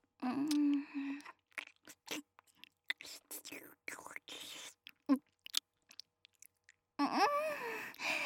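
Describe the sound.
Soft, chewy mouth sounds of tapioca pearls being eaten, with many quiet, irregular wet clicks and squishes. A quiet voice speaks before and after the chewing.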